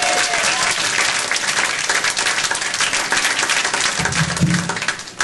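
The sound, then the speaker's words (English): Audience applause at a comedy show welcoming a comedian on stage: dense, loud clapping that holds steady throughout and eases slightly at the end. “Please put your hands together to warm welcome Mr. Ron McGehee.”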